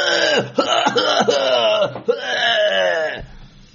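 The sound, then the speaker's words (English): Several loud, hoarse coughs in quick succession, strongly voiced and raspy, each sliding down in pitch, ending with a longer drawn-out hacking cough before cutting off. “Well, I'm going to wake him up with my coughing now.”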